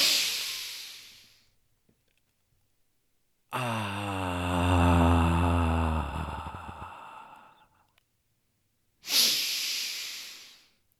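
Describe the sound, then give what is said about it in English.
Deep breathing during a guided breathing exercise: a breathy rush opens, then a pause, then a long, low, voiced sighing exhale. Another sharp breath follows after a second quiet gap. “Take a deep breath.”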